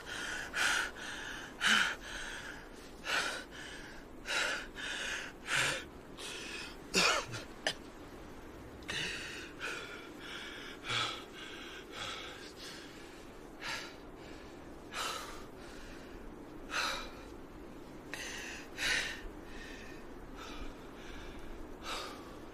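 A man gasps and pants, catching his breath after running through arid mountains. Many sharp, breathy gasps and snorts come in an uneven rhythm over a quiet background.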